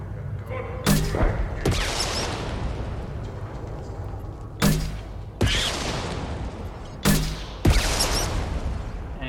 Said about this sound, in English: The AoE on these missiles is pretty big, so we're mostly having a lot of success.